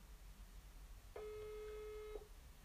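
Telephone ringback tone on an outgoing call that goes unanswered: one steady, mid-pitched electronic tone holds for about a second after a quiet stretch, then cuts off, over faint background hiss with no voices.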